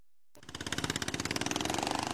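Loud engine of a motor vehicle being driven fast, bursting in after a brief silence and holding a steady, rapid, throbbing drone of closely spaced pulses to the end.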